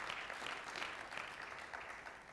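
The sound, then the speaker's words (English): A church audience claps at a Sunday morning service, a faint, steady patter of many hands that continues without a break. “Let's give the Lord a good clap offering.”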